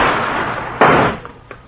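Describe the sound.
A single gunshot in an audio drama set by an alley near a tavern: a sharp, loud crack bursts out over a noisy background and decays quickly, leaving a couple of faint knocks after it.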